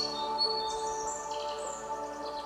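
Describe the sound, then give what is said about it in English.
Recorded birdsong played as music for microgreens growing in an apartment: high, bright chirps and tweets drift over a steady, sustained tonal background, with no one talking. “So it thinks it's like actually like birds and everything.”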